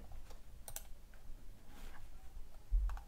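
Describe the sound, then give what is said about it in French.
Typing on a Mac computer keyboard: a few faint, scattered key clicks over a low, steady background hum, with no voices. “je vais essayer de me connecter pour, pour écrire des trucs. Alors le live il est où je vais aller sur mon Mac, comme ça je vais pouvoir me connecter.”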